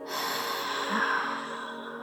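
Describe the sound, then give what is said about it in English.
A deep breath let out with a noise, one long breathy exhale holding steady for about two seconds at a moderate level during a guided meditation breathing exercise. “when you breathe in, go all the way to your belly button, expand your waist, and let go with a noise when you exhale.”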